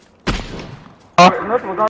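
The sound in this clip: Gunfire in a shooting video game: one sharp, booming shot with a decaying tail, followed after a short gap by a loud voice.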